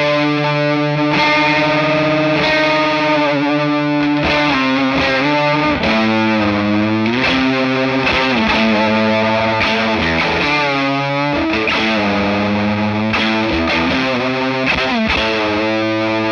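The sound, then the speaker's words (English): An electric guitar plays through a fuzz pedal and a cranked Benson preamp pedal. It produces a loud, thick, saturated tone of continuous distorted chords and sliding notes with a dense, buzzing texture throughout. “And often I'll use the Benson preamp pedal too, just like crank it. But this is my live sound for fuzz for that song.”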